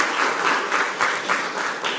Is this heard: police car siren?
no